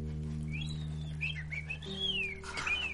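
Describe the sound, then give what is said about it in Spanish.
A man whistles a wavering, meandering tune, the high notes sliding up and down over a steady low droning background. “Le observa mientras silba.”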